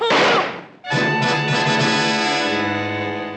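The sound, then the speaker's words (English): A single sharp gunshot fired indoors, entering through a kitchen, cracks loudly at the start and decays over under a second, followed by sustained tonal music that carries on to the end. “He must have come in through the kitchen and started shooting.”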